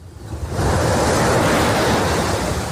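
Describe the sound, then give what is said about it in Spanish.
Sea waves break on a beach in a continuous loud rushing roar of surf that swells up over the first half second and then holds steady, with no voices. “Un proyecto que durante más de 2 décadas ha asegurado que nadie se quede sin sentir la brisa marina, la arena pegada en la piel o este sonido tan hipnótico.”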